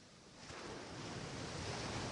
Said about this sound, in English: As the waves continue to wash up onto the sand, then the sea back into the ocean,